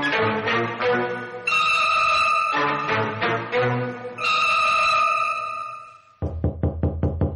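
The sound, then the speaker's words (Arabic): Rapid knocking on a door comes in near the end of a scene in an Egyptian drama: a quick, even run of raps after a long stretch of sustained music. “مين؟ مين اللي بيخبط؟”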